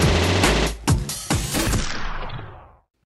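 A loud, dense machine gun sound effect of rapid bursts that blur into a continuous rattle, then fade away over the final moments.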